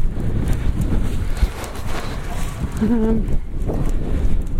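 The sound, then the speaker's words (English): Strong wind blowing outdoors in Kerry, Ireland, buffeting the microphone as a loud, gusty low roar. It rumbles steadily throughout with uneven swells and no real lull. “It's a terrible wind.”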